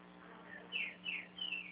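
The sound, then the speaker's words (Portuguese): A household pet songbird chirps three clear, high notes that each slide downward, spaced evenly and sounding alone without talk. “Nossa, tem um passarinho cantando a beça aí.”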